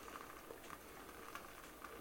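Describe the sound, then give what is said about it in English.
Water in an electric kettle that has just come to the boil, a steady faint rushing and bubbling hiss with small soft pops throughout; no voices. “Okay, the kettle is now boiled.”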